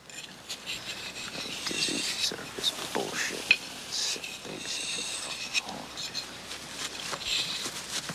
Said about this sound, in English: He spits onto a whetstone, then sharpens his knife on it.